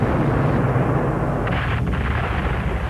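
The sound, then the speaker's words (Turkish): Cannon fire during a naval siege of an island bay: a loud, dense, continuous rumbling barrage with no clearly separate blasts, holding steady throughout. “Yine top ateşine başladılar”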